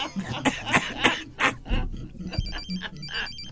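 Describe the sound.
A telephone rings with an electronic ringtone, trilling in high-pitched repeated bursts through the latter half. Voices and throat noises fill the first half before the ringing starts.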